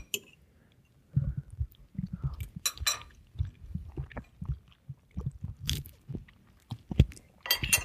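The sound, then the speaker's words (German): Biting and chewing of a homemade tofu dish while tasting it, with irregular soft crunches and moist mouth noises in a quick, uneven rhythm. “So, jetzt probiere ich mal kurz, kurz schon mal.”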